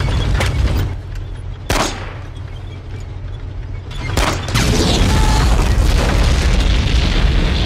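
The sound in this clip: Booming gunshots from a .45 ACP pistol, a 1911, in a Second World War film scene: a few heavy, sharp blasts over a low, dense rumble that swells into continuous loud noise toward the end.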